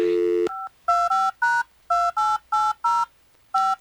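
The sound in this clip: Telephone number dialed on a keypad: a rapid series of about eight dual-tone beeps in an uneven rhythm, following a short steady tone at the start.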